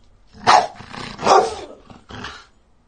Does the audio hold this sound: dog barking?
yes